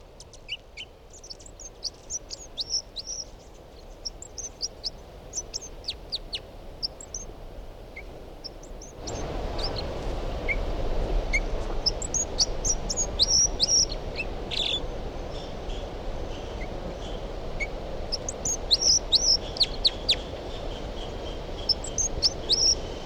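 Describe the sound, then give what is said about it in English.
Songbird singing: many short, high, bright chirping notes repeated in quick runs over steady background noise, which grows louder partway through. “this is the song of bird 305.”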